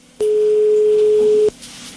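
A single ringback tone sounds on a telephone line while a call is being placed: one steady mid-pitched beep lasting just over a second, followed by faint line hiss.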